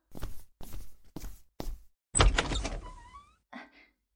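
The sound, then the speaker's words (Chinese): A door being opened at home, preceded by four evenly spaced footsteps; the door makes one longer rattling burst, then a single short bump follows. “我去开门。”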